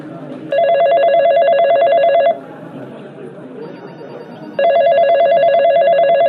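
A telephone rings on the line while a call is placed to a helpline: two long electronic ring bursts with a steady hiss between them, the second cut off at the end.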